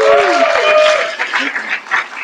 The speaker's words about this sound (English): Okay, round of applause for just being ready like that.